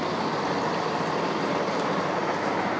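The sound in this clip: Steady rumble and hiss from inside a moving train carriage, even and continuous throughout, with no voices and no distinct events.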